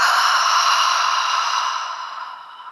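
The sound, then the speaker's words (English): A long, breathy exhale through an open mouth, a soft airy release that starts full and gradually fades quieter over a few seconds. “Inhale through your nose. As you exhale, open your mouth, let it go.”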